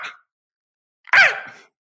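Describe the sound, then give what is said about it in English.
A human voice imitates a fox barking at night: a brief high yelp, a pause of silence, then a longer shrill, rasping cry that slides downward and fades. “They make these crazy noises at night. They bark, and it goes,”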